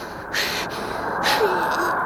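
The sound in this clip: Wind blows as a steady breathy hiss, swelling into two stronger whooshing gusts.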